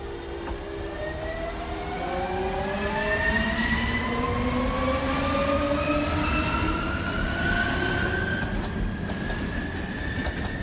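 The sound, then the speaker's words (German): Wheels of the Bernina Express squeal after a tight curve as the train rolls downhill. High, drawn-out tones slowly climb in pitch above a steady, continuous rolling rumble. “Nach einer engen Kurve rollt der Bernina Express talwärts in das südalpine Puschlavtal.”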